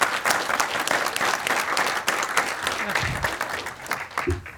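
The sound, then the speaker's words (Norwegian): Applause from a group welcoming a guest, an apprentice electrician, a lively mass of clapping with some voices mixed in, holding fairly steady before thinning out toward the end. “Stor applaus, folkens!”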